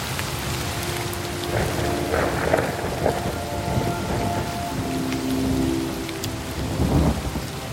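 Rain and thunder in a radio jingle: a steady patter of rain with low thunder rumbling and swelling several times, and a few sustained tones held beneath.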